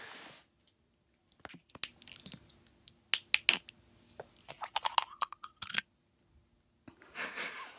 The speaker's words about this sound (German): So, jetzt nochmal hier ein Öffnen der Wolwig-Flasche.